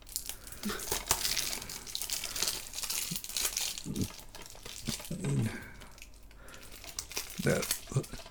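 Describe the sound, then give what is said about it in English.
Plastic wrapping being crinkled and torn off a case, with irregular rustling and crackling bursts throughout, moderately quiet. “is going to unwrap the case because it is still under wraps.”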